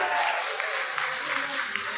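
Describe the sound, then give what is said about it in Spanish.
An audience applauds a pastor and his wife at a church gathering. The clapping is soft and steady and carries on for the whole two seconds. “Un aplauso para ellos.”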